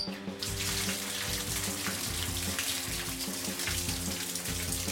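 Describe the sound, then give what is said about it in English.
Ice cold water running from a tap into a bath, a loud, steady gushing and splashing that continues unbroken throughout with no talk. “That is the sound of ice cold water running into my bath.”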